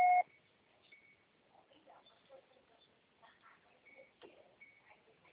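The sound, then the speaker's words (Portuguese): A short, loud electronic beep opens a Brazilian Portuguese Oi carrier voicemail greeting before message recording begins. A steady tone lasts a fraction of a second and is followed by faint, scattered low line noise. “você só será tarificado após o sinal. Grave seu recado.”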